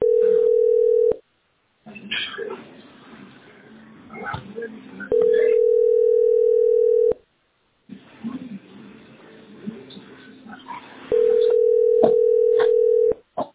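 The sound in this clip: A telephone line tone sounds while a call is being placed: a steady, single-pitch hum in three long stretches, broken by muffled talking and line noise in between.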